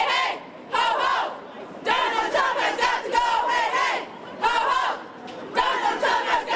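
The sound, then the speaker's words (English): Protesters holding signs chant while marching from Trump Tower to the NBC studios in New York: a crowd shouts phrases in unison, repeated in loud bursts separated by short pauses. “Dozens of protesters holding signs that chanted in march from Trump Tower to the network studios.”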